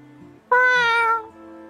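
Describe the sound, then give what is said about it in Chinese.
A single loud meow from a white cat near a teahouse entrance at night. It is a clear, tonal cry lasting under a second that drops slightly in pitch at the end, over a faint low hum. “暗处突然传出一声猫叫”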